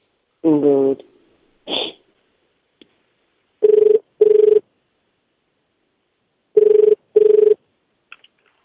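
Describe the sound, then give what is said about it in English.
Ringback tone of a telephone call dialed to Japan: two paired double rings, each a short, steady buzzing tone, separated by a few seconds of silence and preceded by a couple of brief, scattered sounds. “I'm just going to get this guy's number in here, and then we'll give him a call.”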